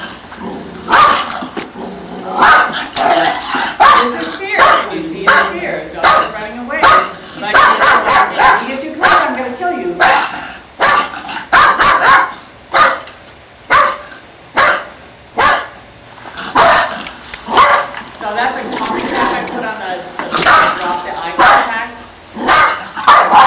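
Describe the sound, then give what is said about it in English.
A German Shepherd crying and barking, loud and continuous, with many sharp barks mixed with whining, whimpering cries and some growling in a dense, agitated stream. “By the way, the crying dog is my German Shepherd.”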